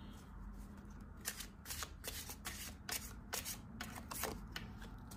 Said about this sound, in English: So let's pull a couple more cards here.